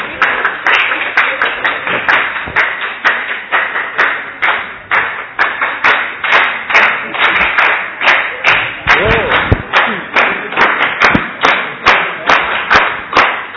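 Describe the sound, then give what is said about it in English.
Audience applause for facilitators collecting gifts at a gathering, loud clapping that settles into an even rhythmic beat and keeps going without pause for the whole stretch. “They deserve a great round of applause.”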